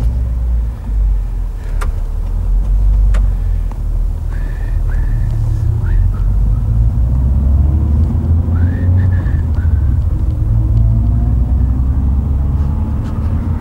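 A car drives along with a steady, loud, low engine rumble and road noise that holds constant throughout, without voices.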